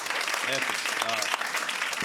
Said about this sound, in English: round of applause.